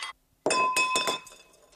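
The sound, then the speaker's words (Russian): A drinking glass slides off a table and hits the floor with a bright, sharp clink, followed by a few quick rattling chinks. Clear ringing tones fade out afterwards. “Доехав до края, стакан падает на пол.”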